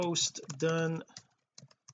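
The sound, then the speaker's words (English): Computer keyboard typing as a social media post is written, with a few sharp, sparse key clicks following a stretch of talking. “I click on the great big create post button on my Facebook page, and I can type in here”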